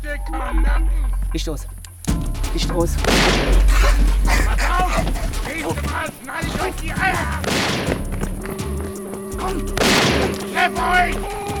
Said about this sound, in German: Ey, war das scharfe Munition?